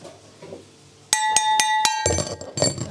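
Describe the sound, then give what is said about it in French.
A champagne coupe being struck and then broken: a few bright, ringing glass clinks, followed by a harsher, noisier clatter of broken glass that rattles on to the end. “J'ai cassé la coupe à champagne. Ah, ça fait pas le même bruit.”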